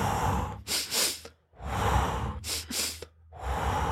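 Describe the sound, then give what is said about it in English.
Breathing drill of two quick inhales stacked through the nose, then a long, steady exhale pushed out through the mouth to release carbon dioxide. The cycle runs twice: a pair of short, sharp intakes followed by a drawn-out, airy breath out. “Andrew Huberman talks about, the double inhale followed by a long exhale, pushing out that air, the carbon dioxide, through your mouth.”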